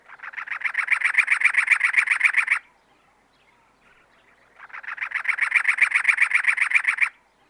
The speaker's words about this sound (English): That was the song of the cactus wren.